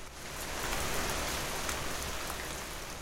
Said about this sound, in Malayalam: മഴപ്പെരുക്കം കുറഞ്ഞു.